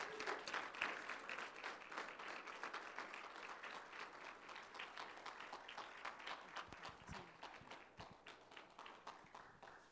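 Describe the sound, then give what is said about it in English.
A church audience claps to welcome a visiting evangelist to the morning service: fairly faint applause with a regular, pulsing rhythm that continues for about ten seconds and gradually softens. “Come on, put your hands together.”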